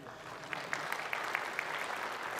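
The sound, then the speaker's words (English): Audience applause at a live software demo talk, a dense, even wash of clapping with a few sharper individual claps standing out across the stretch. “Applause for Payman for not getting fired today.”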